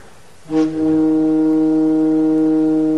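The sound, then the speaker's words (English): A cleaned zinc organ pipe from Christ's Memorial Church in Philadelphia sounds one loud, steady, low tone rich in overtones, opening with a brief breathy attack and then holding evenly to the end. “So this particular pipe, this zinc pipe, mm-hmm. came out of an organ from where? From Christ's Memorial Church in Philadelphia.”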